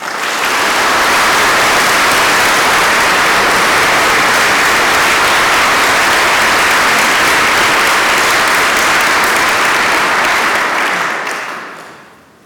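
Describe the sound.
Sustained audience applause welcomes a university chancellor at an Oxford talk. The clapping is loud and dense and holds steady throughout, then fades out at the end.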